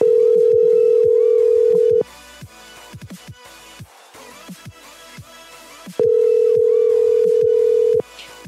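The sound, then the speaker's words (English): A loud, steady telephone dial tone hums for about two seconds. It gives way to a few seconds of short clicks and brief tones during dialing, then the same continuous tone returns for another two seconds. “Probably not a good idea to say that while we're dialing, guys.”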